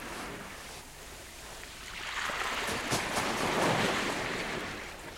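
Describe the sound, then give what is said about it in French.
Small sea waves break on a shore in a steady wash of foamy hiss that swells a little midway and then eases, with no voices. “Nous avons couru pour nous étaler dans les premières petites vagues.”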